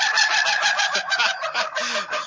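A rooster crows in one long, harsh, continuous call that fills the whole clip, loud and raspy with a steady, slightly wavering pitch and no other sounds.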